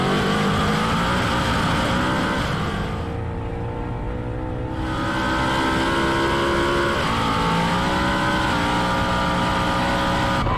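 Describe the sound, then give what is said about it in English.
A Ford Mustang S650's engine drones loudly and continuously as its dual-clutch transmission hunts for a gear with traction control active, the engine note shifting a few times without settling. “Traction control is active. Listen to the DCT try to find a gear.”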